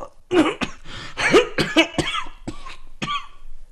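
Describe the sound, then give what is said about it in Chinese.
Violent coughing: a fit of harsh, rasping bursts in quick succession, some with a voiced, throaty edge, fairly loud and heard alone without talk. “又剧烈咳了起来”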